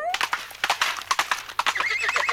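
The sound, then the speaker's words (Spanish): Horse sound effect of hooves clopping in a quick, uneven run of many sharp beats, with a bright neigh at the start and a shorter whinny near the end. “un caballo.”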